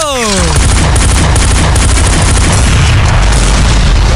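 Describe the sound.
A loud explosion sound effect begins with a falling whistle, then a heavy boom that spreads into a sustained, deep rumbling roar lasting to the end.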